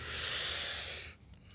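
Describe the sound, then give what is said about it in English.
A deep breath drawn in by a singer before a song, a steady airy hiss lasting about a second that cuts off abruptly into near quiet. “And breathe in.”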